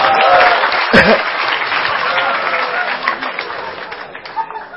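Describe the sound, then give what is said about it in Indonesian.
Applause from an audience at a religious study gathering: a dense, steady clatter of many hands lasting about five seconds that thins slightly toward the end. “Oke tepuk tangan Mas Anto.”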